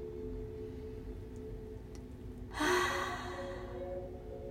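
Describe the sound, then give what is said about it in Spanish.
During a breathing exercise, one soft, airy exhale through the mouth rises briefly out of a faint, steady low hum, the rest staying very quiet. “Vamos a inhalar por la nariz y exhalar por la boca dos veces.”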